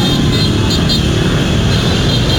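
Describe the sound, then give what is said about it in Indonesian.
Motorcycles ride against the flow of traffic on a road, a dense, continuous roar of engines and road noise that stays loud and even throughout. “Banyak sekali motor yang lawan arus ini. Dari arah utara ke selatan gitu ya.”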